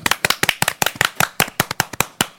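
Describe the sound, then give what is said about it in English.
A table tennis paddle hitting, heard as a quick, irregular run of many sharp, crisp knocks, loud and alone with no voices. “Boom, boom, boom. Table tennis paddle. Racket. There it is.”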